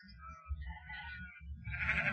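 Sheep bleating: a few wavering, nasal bleats rise and fall over a low, continuous rumble, growing a little louder toward the end.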